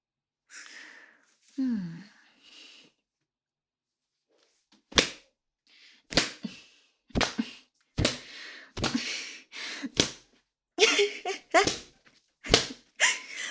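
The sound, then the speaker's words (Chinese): Whip strikes land as many sharp, loud cracks in irregular succession, after a few soft breathy vocal sighs at the start. “只能再用这根鞭子继续调教你了。”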